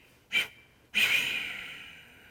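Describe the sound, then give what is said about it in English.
Breathing during a pranayama exercise: a short, sharp breath comes first, then after a pause a long, audible exhale that starts strong and fades slowly to quiet. “Count five more. On the last one, exhale.”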